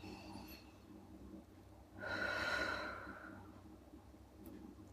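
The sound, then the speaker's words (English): A single deep breath, a long, soft, airy inhale-exhale swell lasting about a second and a half, faint and alone against quiet background hum. “I can take notice by taking a deep breath.”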